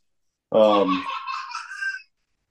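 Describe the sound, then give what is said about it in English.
A baby boy gives one short vocal outburst of about a second and a half, starting strong with a strained, harmonic cry-like sound and then thinning into higher, wavering tones before stopping abruptly. “But sorry if you can hear my son crying.”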